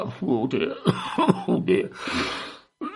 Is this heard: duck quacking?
no